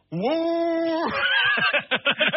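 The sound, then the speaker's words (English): A voice imitating a four-barrel carburetor engine revving as the gas pedal is pressed: a rising, sustained droning tone that breaks into a run of rapid, choppy sputtering bursts. “that thing had a four-barrel carburetor on it, and when it was when you step on the gas, it would go,”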